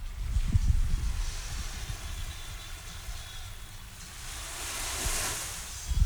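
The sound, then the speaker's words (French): Ocean waves wash in a steady, broad hiss over a low rumble. The noise is continuous, dips slightly midway and swells again near the end, with no voices. “Je sais pas si on entend, c'est le bruit de vagues.”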